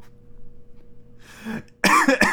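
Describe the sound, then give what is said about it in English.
Coughing brought on by laughter: a soft breathy exhale, then two sharp, loud coughs in quick succession, with no talk. “sorry, my laughter made me cough.”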